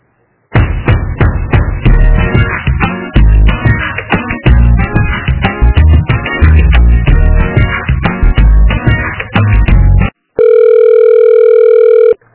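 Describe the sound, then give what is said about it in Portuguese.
Telephone line sounds during a call transfer: loud, tinny, rhythmic hold music plays for about ten seconds, then breaks off briefly before a steady, unbroken line tone of about two seconds. “Sim, que eu vou transferir aqui pro Wilson.”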